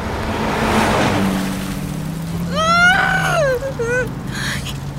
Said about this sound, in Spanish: Calma, estoy manejando lo más rápido posible.